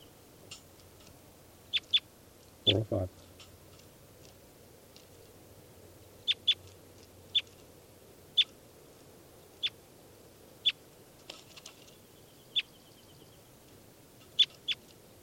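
A banded bird being handled gives many short, sharp, high chirps at irregular intervals over a faint background, with one brief low rustle of handling early on.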